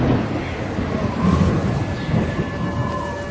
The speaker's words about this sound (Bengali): দরজায় দাঁড়াতেই ঝোড়ো হাওয়ায় ঝাপটা লাগলো চোখে।